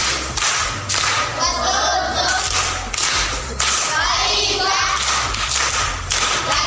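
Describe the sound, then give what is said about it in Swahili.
Loud applause for a woman after she recites a proverb at a primary school gathering: dense, continuous clapping that surges and dips in rhythmic waves throughout. “Makofi kwa shangazi.”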